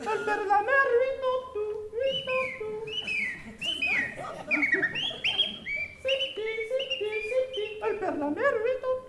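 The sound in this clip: A whistled imitation of a song thrush's song: clear, birdlike tonal phrases, each repeated several times, with quick pitch slides and varied notes, steady and moderately loud throughout.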